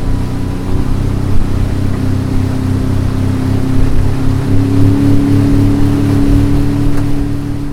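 Steady low drone of a fishing boat's motor as it travels on to the next net. The deep humming engine runs loud and unbroken throughout, with a faint wash of water and no voices.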